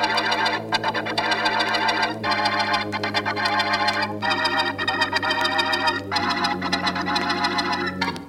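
A printing machine runs in a print shop with a steady, fast mechanical clatter and a constant hum, broken by a few brief pauses in the rhythm.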